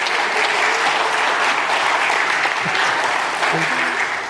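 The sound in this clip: Audience applause welcomes a performer back onto the stage for an improv set, a dense, steady wash of clapping that holds at an even, fairly loud level throughout.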